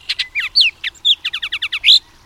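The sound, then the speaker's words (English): A Bullock's oriole near its nest in a cottonwood above a sage hillside calls in a rapid series of many clear whistled notes and chattering chips, ending in a louder slurred whistle. “It's a bullock's oriole, sallying out from its nest among the upper branches of the cottonwood to hunt for insects in the shrubby”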